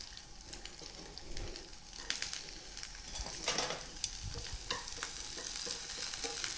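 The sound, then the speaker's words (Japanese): Komatsuna greens stir-frying in hot oil: a steady, crackling sizzle with scattered sharper pops and stirring scrapes throughout, with no voices. “さあ、では油が熱されてきたらここに小松菜を入れます。”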